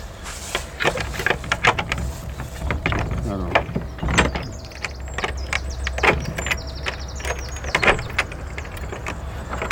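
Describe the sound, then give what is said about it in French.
An old Gascon door lock at a preserved early-1900s house is worked open backwards, giving a series of irregular metallic clicks, clunks and rattles with a few high squeaky scrapes in the middle. “Une vraie serrure gasconne, il faut ouvrir à l'envers.”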